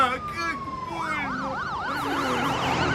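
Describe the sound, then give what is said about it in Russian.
An ambulance siren wails as it drives fast through city streets, its loud tone sweeping up and down in quick, regular cycles over a rumbling traffic background. “Скорая забрала его. Они быстро едут по городу.”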